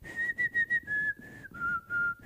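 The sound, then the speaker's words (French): A woman whistles a pop song melody into a microphone: several short, clear notes, then longer held tones that step lower in pitch. The whistling is fairly faint and alone. “Je ne sais pas si vous replacez un peu l'air que je vais tenter de vous siffloter.”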